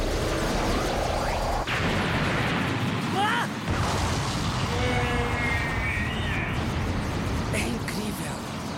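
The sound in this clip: A cartoon blast of lava saliva fired from a character's mouth weapon in a Dragon Ball Super fight, a sudden explosive burst with a rumbling roar, heard under loud shouting voices.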